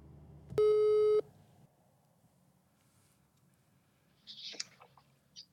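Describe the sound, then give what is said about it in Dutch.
Telephone tone while calling someone: a single steady electronic beep, followed by a few faint clicks after a quiet gap. “Dus laten we haar even gaan bellen.”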